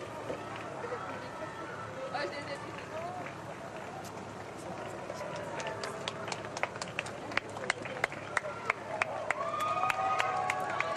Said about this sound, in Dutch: En u hoort natuurlijk ook nog de mensen die zich ofwel aan de rand van de straat al hebben opgesteld, of misschien toevallig zien dat de Heilige Vader passeert.